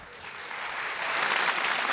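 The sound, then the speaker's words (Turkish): Audience applause follows a duet on a televised evening show, a dense, steady wash of clapping that swells louder partway through and holds. “Efendim alkışlarınız için teşekkür ediyoruz.”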